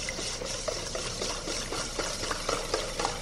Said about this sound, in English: start whisking.